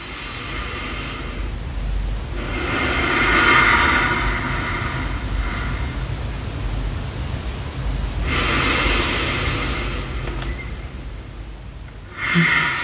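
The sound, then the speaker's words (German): Slow, deep belly breathing paced at four counts in and six counts out: long, soft, airy breaths rise and fade across a few unhurried cycles, with no talking. “Und du zählst innerlich bis 4, die Luft in den Bauch. Und beim Ausatmen langsam bis 6, also ungefähr so.”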